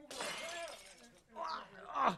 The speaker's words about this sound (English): The door is stuck! Get out of the way and I'll kick the glass out!